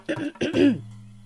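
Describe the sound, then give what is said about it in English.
A lingering cough from someone still recovering from illness: three quick rough bursts, the last one voiced and drawn out, followed by a faint steady hum. “I was sick several weeks ago and I'm still coughing”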